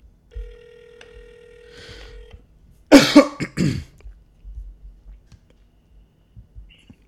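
Telephone ringback on an outgoing call: a single steady tone lasting about two seconds, followed by a loud, brief cough-like burst and some faint scattered sounds.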